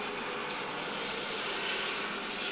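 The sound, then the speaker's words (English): The drop sequence sound effects of the Tower of Terror ride, a loud, steady roaring rush that holds level throughout with no voices. “That's an intense drop sequence. It's more intense than the actual ride.”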